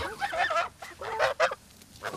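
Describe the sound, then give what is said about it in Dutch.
Farm geese acting as watchful guards honk in a run of several loud, nasal calls. Some honks come in quick clusters with brief gaps between them, and no talk is heard. “de ganzen zijn natuurlijk ook gewoon goede wakers. Dus als er iets er dichtbij komt, dan gaan ze echt beginnen met gakken.”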